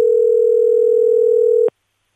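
Telephone dial tone: a loud, steady, unbroken hum at a single pitch that holds for under two seconds, then cuts off abruptly into silence.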